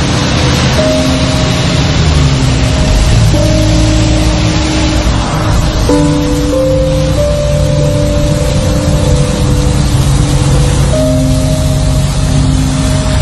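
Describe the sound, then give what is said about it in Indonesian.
Engine noise from inside an angkot shared minibus during a ride: a steady, loud motor drone with a few shifts in pitch, and no voices. “Dan karena jarak dari rumahku lumayan jauh, aku pun memutuskan untuk naik angkot saja.”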